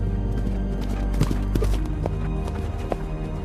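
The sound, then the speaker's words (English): Hooves of running deer thudding past, a rapid, uneven patter of knocks over a dense, continuous rumble of movement. “Watches in terror as the animals run past.”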